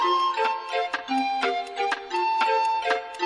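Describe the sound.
Regular ticking of a clock at a palace ball just before midnight, with sharp ticks about twice a second over sustained, ringing chime-like tones and no talking.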